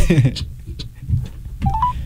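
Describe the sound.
Short telephone dialling tones sound while someone places a call. A couple of brief electronic beeps come near the end, after people talk.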